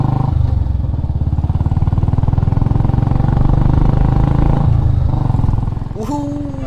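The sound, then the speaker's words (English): A Royal Enfield Electra 350 motorcycle engine runs with a loud, steady, rapid thumping pulse that holds throughout, swelling slightly midway before easing off near the end. “the Royal Enfields are famous for their pure riding joy. I went with the Electra 350 model.”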